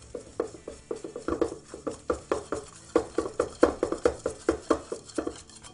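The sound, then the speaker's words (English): Rapid whisking of an egg in a bowl, heard as many quick, sharp clinking strokes in a steady rhythm that carries on throughout, with no talking over it. “We're going to work that egg in real quick. We're going to whisk it real fast here.”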